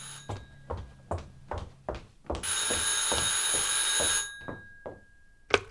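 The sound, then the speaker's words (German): A telephone rings with a bright, sustained metallic ringing burst in the middle, set against a steady run of regular soft thuds that continue before and after it. “ich muss ans Telefon”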